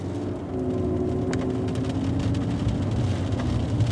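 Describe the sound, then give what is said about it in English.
A car drives through Mountain View Cemetery in Oakland, California, giving a steady, low engine and road hum with a faint whir, constant in level and with no voices. “We are driving in Mountain View Cemetery in Oakland, California.”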